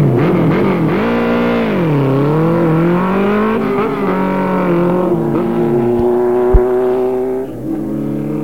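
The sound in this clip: A 750cc motorcycle engine roars loudly and continuously, its pitch dipping and climbing as it revs.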